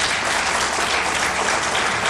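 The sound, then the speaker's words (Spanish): Dense, steady applause from an audience at a Dominican Republic tourism gathering, honoring one of the founders of the country's tourism industry. Loud, continuous clapping runs evenly for the whole stretch with no voices over it. “el señor Luis López, para quien pido un aplauso.”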